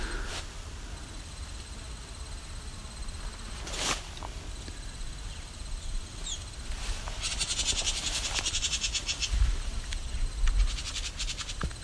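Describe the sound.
A wren calls near its nest territory, giving a rapid, buzzy scolding rattle in repeated high bursts, strongest in the second half, fairly faint over a steady outdoor background.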